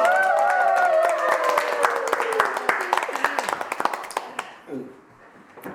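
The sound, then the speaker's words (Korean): Audience clapping at a public recording of a church disciple class: many sharp claps in a quick burst that thins out and stops after about four seconds, with voices over the clapping. “말을 하고 박수를 쳐야 돼.”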